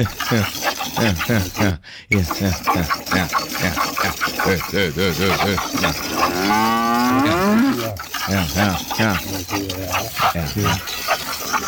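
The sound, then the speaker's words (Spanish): Cow mooing: a long, drawn-out moo of about two seconds that rises out of a stretch of lively conversation and is heard under the talk. “qué vaca tan tetona, hombre”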